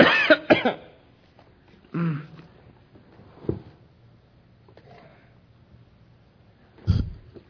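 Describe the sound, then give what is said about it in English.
Coughing after something went down the wrong pipe: a quick double cough opens, followed by a few more isolated coughs and throat clearing separated by quiet pauses. “Excuse me. Just went down the wrong pipe.”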